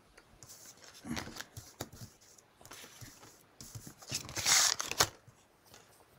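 Playing cards drawn and handled from a deck during a tabletop role-playing game, a run of soft papery slides, flicks and snaps in irregular bursts, louder toward the end.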